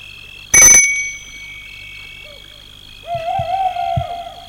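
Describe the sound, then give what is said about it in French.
A bell at a gate gives one quick, bright metallic ring. Soft hoot-like calls follow later. “Elle sonne au portail.”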